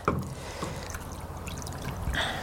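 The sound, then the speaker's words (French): Cold water poured over cooked foie gras set in snow to stop its cooking, in Chamonix: a steady, rushing splash of pouring water lasting about two seconds, with no voices. “Un peu de neige autour. Et on va verser de l'eau froide. L'objectif c'est d'arrêter la cuisson.”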